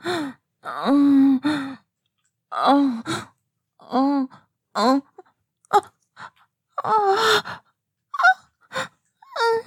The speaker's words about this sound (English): Keep making those noises. Every labored breath.